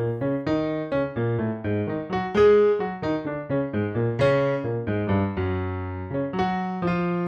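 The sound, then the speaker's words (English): A piano plays a counter-melody riff, one repeating shape cycling through a chord progression, as a steady run of many distinct notes at an even pace before settling on a held tone. “I'll just play it on piano. It sounds like this.”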